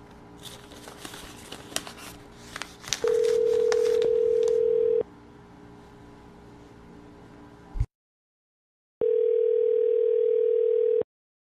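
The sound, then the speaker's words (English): A telephone dial tone plays as two steady, even hums. The first rises out of hissy line noise, then a click and a short silence come before the second. “Alright, got some numbers to dial here.”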